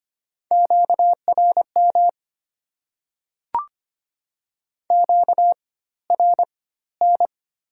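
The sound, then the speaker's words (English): A radio interference tone sounds as a steady mid-pitched electronic beep, chopped into several clusters of short pulses with silent gaps between them and a single sharp click midway. “Change frequency. Interference.”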